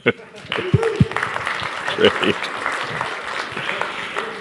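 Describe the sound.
Applause from an audience welcoming a speaker to the stage at a Campbellford gathering: a sharp onset, then a dense, steady patter of clapping that continues for several seconds, with voices briefly audible over it.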